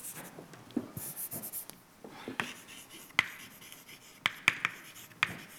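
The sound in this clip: Scratchy strokes of writing on a board during a physics lecture on mass density, with a run of light scraping marks and a few sharp taps as the writing implement strikes the surface, fairly faint overall.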